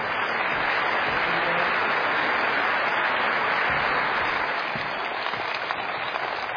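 Audience applause welcomes a pastor to a Bob Jones University conference: a dense, steady wash of many clapping hands that holds at an even level throughout, with no talk over it.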